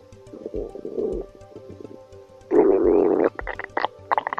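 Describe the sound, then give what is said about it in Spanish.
A hungry stomach rumbling and gurgling: a soft low bubbling growl first, then a louder, longer churning rumble, followed by several short gurgling pops. “¿Por qué ruge el estómago cuando tenemos hambre? ¿Qué vergüenza se pasa cuando estamos en un lugar silencioso y rodeado de gente y de repente nuestro estómago empieza a rugir?”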